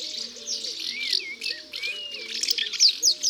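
Young house martins twitter busily in five or six masonry mud nests fixed under a roof overhang, a dense, continuous stream of high, thin chirps with no voices present.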